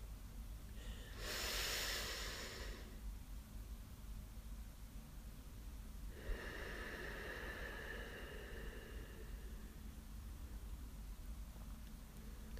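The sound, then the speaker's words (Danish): Slow, deep breaths drawn in through the nose: two long, airy inhalations separated by a pause, soft and faint against quiet background hiss. “Indånding gennem næsen. Lang, dyb indånding gennem næsen.”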